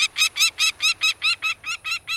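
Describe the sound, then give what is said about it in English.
Peregrine falcon calls: a series of about eleven harsh, high, evenly spaced cackling notes in a steady rhythm, heard alone. “the peregrine falcon, would become both a casualty and then one of the biggest success stories of all?”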